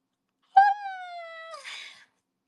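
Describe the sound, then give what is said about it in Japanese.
A growling stomach gives one drawn-out tonal moan that sags slightly in pitch, then ends in a short rough gurgle. It is clear and alone, with no voices. “あ、やばい。ブオーって言ってる、お腹が。”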